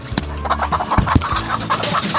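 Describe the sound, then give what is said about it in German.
Free-range hens and roosters, a flock of about 340 hens and 5 roosters, cluck in a mobile coop: many overlapping, busy clucks and short calls, with a few sharper squawks standing out. “340 Hühner und 5 Gockel. Genau richtig. Ihr habt Freilandhennen.”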